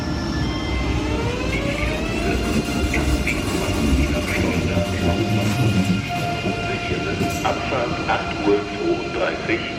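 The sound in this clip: A German ICE high-speed electric train starting off, a steady loud rumble of rolling wheels and machinery threaded with sustained tonal whines, continuous for the whole stretch without pause.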